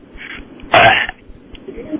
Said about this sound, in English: Did you just burp? Yeah, it was weak, wasn't it?